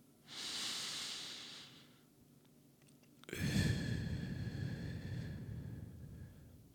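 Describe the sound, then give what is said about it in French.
Deep breathing in and out during a guided eyes-closed breathing exercise: two long airy breaths, the first about a second and a half and softer, the second longer, louder and fuller. “Je vais le faire moi-même avec toi et je ferme les yeux. Expire. Encore une inspiration.”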